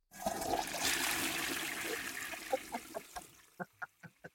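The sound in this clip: A toilet flushes with a loud rush of swirling water that fades into a few bubbly gurgles and trickles at the end.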